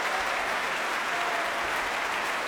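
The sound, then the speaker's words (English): After a concert, orchestra members applaud and tap their bows. The sound is a steady, dense wash of clapping that stays even from start to finish. “Every member of the orchestra either tapping their bows in appreciation or applauding.”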